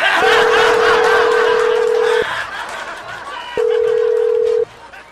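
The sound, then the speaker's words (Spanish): Steady telephone tones sound as a call is placed: a long tone of about two seconds, a pause, then a shorter tone. Laughter and chatter run beneath the first tone. “Ok, voy a marcarle.”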